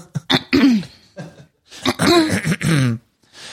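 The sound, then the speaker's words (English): A voice imitates an exaggerated throat clearing, the kind added to an acting role. Several forceful, gravelly rasps come in uneven bursts with brief gaps, loud and hard-edged. “her or the acting coach was like, how about you add like a clearing of the throat? And so she just like went hard.”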